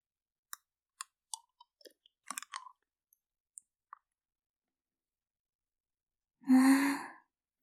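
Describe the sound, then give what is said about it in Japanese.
Licking mouth sounds: a few soft, wet clicks and smacks come in a loose, irregular cluster, then a pause and a longer breathy sigh at the end. “ずっと片方ばっかり舐めてたから、こっちもやっと舐めてもらえて、嬉しいね。”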